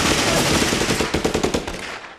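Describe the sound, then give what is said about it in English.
Rapid machine gun fire sounds as a dense, loud, continuous stream of shots that thins slightly and fades toward the end. “Bro, they got machine guns.”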